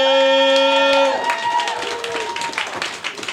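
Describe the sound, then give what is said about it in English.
Audience applause at a comedy show where two performers are being introduced. Dense, crackling clapping swells in after a short held tone and carries on steadily to the end. “Round of applause for these two.”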